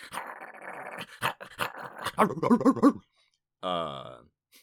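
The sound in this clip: A person's voice imitates a small, mud-covered dog resisting being picked up to go to the vet: about three seconds of gravelly growling in pulsing bursts, a pause, then a short, high, nasal whimper.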